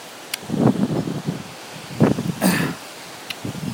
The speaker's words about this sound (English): Oh, this is kind of a disorienting wind in a lot of ways.